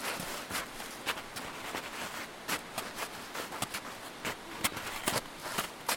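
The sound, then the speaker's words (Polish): Footsteps through snow as people step in, with many irregular crunching and thudding steps and occasional sharper stamps, at a quiet level with no voices. “Tu na prawo, troszkę buty, żeby sobie otrzepać. Włazimy po śniegu.”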